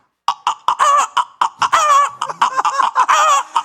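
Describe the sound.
Free-range chickens cluck in a quick series of short, nasal calls. The bursts come in an uneven rhythm, with a few longer drawn-out notes among them.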